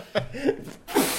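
A quick, sharp sneeze burst, followed by a couple of short snorting, chuckling exhalations, brief and fairly loud.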